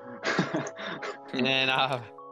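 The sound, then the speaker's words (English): A person clears their throat in a few rough, voiced bursts, moderately loud and without speech. “Sorry, I had something in my throat.”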